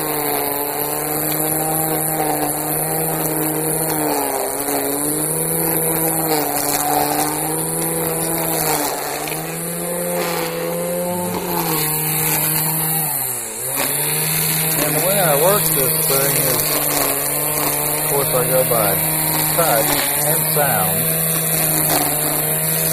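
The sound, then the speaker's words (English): A string trimmer cuts grass along the edges next to a house, its small engine giving a continuous, loud buzzing drone with a slightly wavering pitch and one brief dip partway through. “just trimmers for around the edges, and sometimes I'll start with the mowing first, but today we're going to do the trimming first.”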